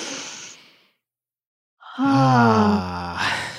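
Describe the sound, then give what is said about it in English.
A deep breath let out in a voiced "ha" sigh: a soft breathy exhale, a short silence, then a long, loud, open-throated "haaa" that slowly trails off. “Let it out. And that's a ha breath.”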